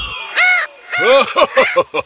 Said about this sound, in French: il vit un perroquet perché dans un arbre.